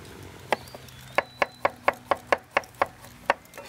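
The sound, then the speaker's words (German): Knife chopping carrots on a board: a quick, steady run of sharp wooden knocks at an even rhythm, each one crisp and short, with a brief gap after the first stroke. “Der kann mir helfen und zwar kann ich gut die Karotten schälen. Guck mal, hier ist die Schüssel. Dann fange ich schon mal an zu schneiden.”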